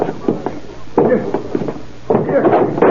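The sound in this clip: Heavy, dull blows against a door as police break it in, several thuds landing in uneven bursts, each with a short woody crunch.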